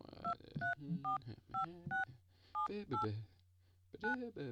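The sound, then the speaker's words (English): Telephone keypad tones as a voicemail password is keyed in on a Rogers Wireless voicemail line: a quick series of short, bright beeps, each tone crisp and separated by brief gaps. “Welcome to Rogers Wireless Voicemail. Mm-hmm. Please enter your password. Gonna go with the classic.”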